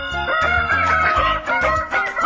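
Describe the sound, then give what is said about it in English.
Rooster crowing in a radio studio: a few drawn-out, harmonically rich crows follow one another closely, loud and raspy, with brief dips between them. “Yeah, I'll wake you up. Woohoo! Roosters in the studio.”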